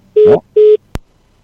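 A phone call is hung up: two short, evenly spaced electronic beeps sound, followed by a single sharp click, with silence around them and no speech.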